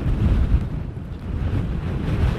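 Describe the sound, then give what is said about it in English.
Strong, gusting wind buffets the microphone on a beach near the village of Rossilly, a loud, continuous low roar that swells and dips with the gusts, with no voices. “I'd say that actually the wind today is a lot stronger than yesterday. Really gusting, so hopefully you can still hear me.”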